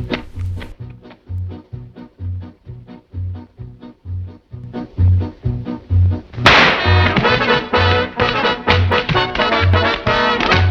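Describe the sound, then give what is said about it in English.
A firecracker lit from a cigarette explodes: sharp snapping cracks sound over a steady rhythmic music beat, then turn into a loud, dense run of crackling bursts that lasts to the end. “He now pulls out a firecracker and lights it from his cigarette.”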